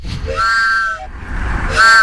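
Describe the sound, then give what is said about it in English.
Train whistle blowing twice: a longer, steady, bright chord-like blast, then a shorter one after a brief pause, both loud over a low rumbling background. “He had a, he just started pulling a train whistle.”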